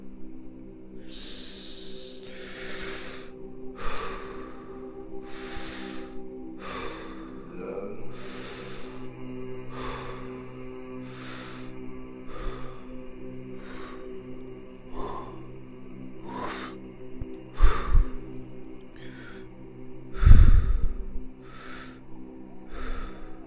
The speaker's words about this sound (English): Inhale again, slow and steady.